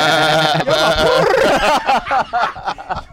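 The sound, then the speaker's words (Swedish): A human voice imitates a lamb's bleat: a wavering, harmonic cry that then breaks into choppy, chuckling bursts, loud throughout. “Det är som brrr, det låter ett lamm. Bää.”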